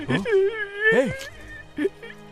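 A boy crying, with whimpering, quavering sobs in a few uneven bursts whose pitch wavers up and down, heard alone without talk.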